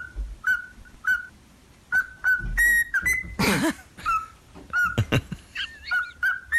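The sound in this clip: A parrot whistles a rock song melody in clear, bright, high notes with a bouncing rhythm. A burst of noisy squawking interrupts the tune midway, and lower grunting sounds appear underneath.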